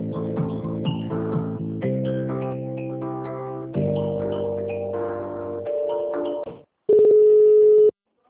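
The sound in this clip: Telephone line tones as a call is transferred to another extension: a series of steady electronic tones that step between pitches, then a short gap and one loud, pure, sustained tone before the line cuts off.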